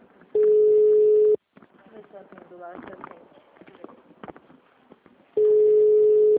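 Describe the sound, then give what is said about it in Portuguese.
Telephone ringback tone sounds while a call is being placed: two long, steady, even-pitched beeps about four seconds apart, with people talking between them. “Tá chamando.”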